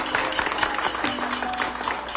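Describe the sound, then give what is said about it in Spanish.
Applause from an audience for a singer on a radio show, a fairly quiet, dense patter of many hands clapping that continues evenly throughout. “Un aplauso para Marisol.”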